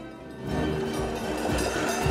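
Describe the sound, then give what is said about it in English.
Train running on railway tracks below a pedestrian walkway: a loud, steady, low rumble that holds at a fairly even level throughout, with no voices. “are crossing a walkway over train tracks”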